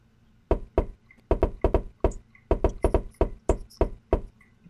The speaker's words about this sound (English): I would like to hear a fancy knock. It sounds like this. He goes like this.